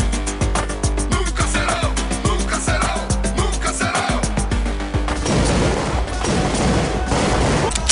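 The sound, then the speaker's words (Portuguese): Rifle gunfire rattles in rapid, loud shots for several seconds, then gives way to a denser, noisier burst of fire. “tá bem atirando com meu fuzil, fica fácil, né?”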